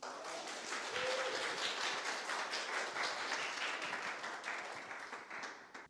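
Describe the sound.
Applause and clapping from a church audience welcoming a guest speaker, dense and steady throughout, easing slightly toward the end.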